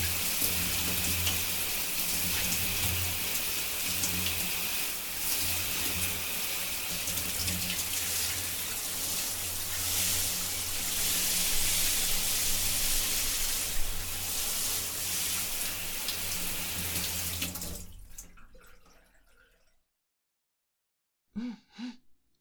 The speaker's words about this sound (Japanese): 念入りにできたかな。そしたら流しますね。